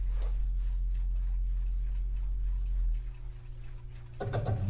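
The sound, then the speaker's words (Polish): Clocks tick faintly and steadily in a room over a constant low hum. A louder, brighter burst of sound breaks in near the end. “Moje zegary słychać w tle? Tak jest.”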